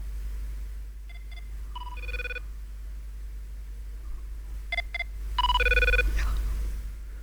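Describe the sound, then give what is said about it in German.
Internal ringtone of a Cisco Systems office phone system: two electronic ring cycles, each opening with brief beeps and then longer, brighter chiming warbles, heard over a steady low hum. “damit man den internen Klingelton von der Cisco Systems Telefonanlage hören kann.”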